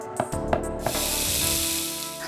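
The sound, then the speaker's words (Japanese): Stir-fry sizzling in a frying pan over a gas flame, with garlic and butter: a few sharp clicks and taps at first, then a steady, bright hiss of frying that carries on to the end. “包丁が勝手に物を切ったり、フライパンが宙に浮いてるのだ。見えないコックの噂は本当だったのか。炒め物でも作っているのか。”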